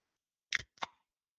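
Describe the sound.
Two short, sharp bursts, one quickly after the other, as a beer bought at Lake Placid is cracked open, with no talk around them.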